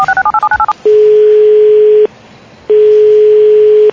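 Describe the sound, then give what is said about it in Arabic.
A phone call to the Tunisian post office: a rapid string of keypad dialing beeps is followed by two long, steady ringback tones separated by a short gap. “لما نهز التليفون نكلمه ما نشوف ايش عندهم”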